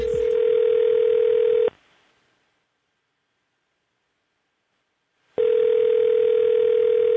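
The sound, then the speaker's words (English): A telephone line tone sounds as two long, steady, buzzing bursts separated by a silent pause of several seconds. “That phone is busy.”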